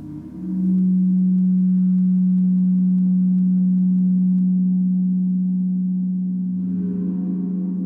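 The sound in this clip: A sustained, loud, low humming tone made by rubbing a bouncy ball mounted on a small stick across a surface. It holds steady for several seconds, and its upper overtones thicken toward the end.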